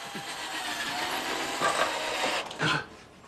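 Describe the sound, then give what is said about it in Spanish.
Screwing a metal plate into place gives a continuous mechanical whirring and ratcheting hiss, with a few louder grinding bursts near the end before it eases off. “ya puedes atornillar la plancha de metal”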